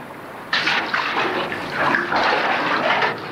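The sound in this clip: Water starts to gush after a brief pause and keeps rushing steadily as a loud, hissing, splashing flow until the end.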